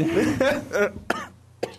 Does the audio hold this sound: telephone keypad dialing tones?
no

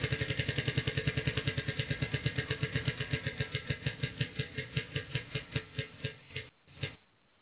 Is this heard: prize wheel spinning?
yes

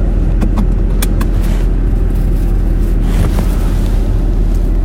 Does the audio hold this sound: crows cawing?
no

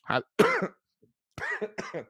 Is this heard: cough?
yes

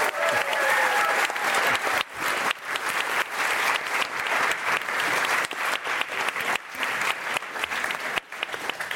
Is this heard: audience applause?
yes

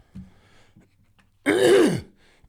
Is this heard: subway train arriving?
no

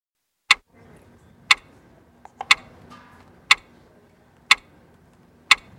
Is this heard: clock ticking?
yes

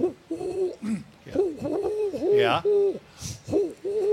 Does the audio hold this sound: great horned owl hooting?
yes

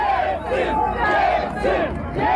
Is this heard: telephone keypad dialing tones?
no

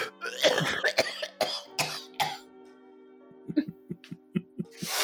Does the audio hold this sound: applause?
no

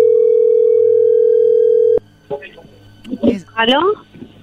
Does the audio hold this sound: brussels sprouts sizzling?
no

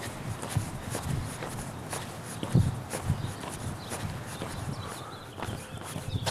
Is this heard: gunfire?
no

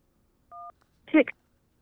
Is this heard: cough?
no

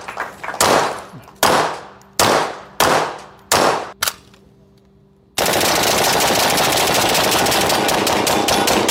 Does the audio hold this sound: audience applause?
no

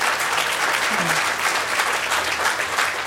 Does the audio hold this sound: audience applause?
yes

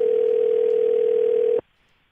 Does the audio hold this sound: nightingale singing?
no

